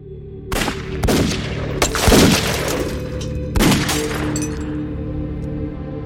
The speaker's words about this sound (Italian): I colpi, esplosi attraverso il finestrino con una calibro 38, feriscono Mattarella.